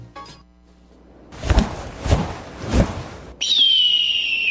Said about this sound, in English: That's not just a bird.